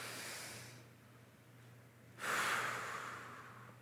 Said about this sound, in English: can you take a deep breath? Let it out, all right? One more time. Take a deep breath.